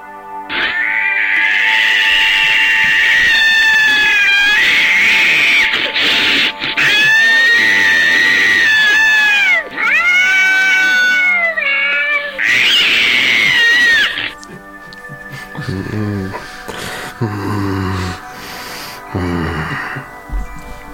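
An angora cat yowls loudly in long, wavering, drawn-out cries, a series of high caterwauls that fill the first part before giving way to quieter, broken snorting sounds.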